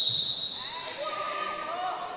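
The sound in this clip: Basketballs bouncing during wheelchair basketball training on a suburban court in Maryborough, with faint, repeated thumps under a steady background hiss.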